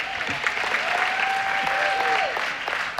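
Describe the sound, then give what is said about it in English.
Applause from a church audience during a sermon, steady dense clapping at an even level for a few seconds before easing off. “Oh, come on, give Zach a hand.”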